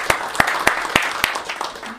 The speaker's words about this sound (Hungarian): úgyhogy szeretném, hogyha őt köszöntenénk egy tapssal.